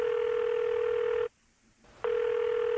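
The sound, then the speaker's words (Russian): Telephone tones as a woman quickly presses a phone's buttons: a loud, steady electronic tone, a short silence, then the same tone again, with no talk. “Она быстро нажимает на кнопки телефона.”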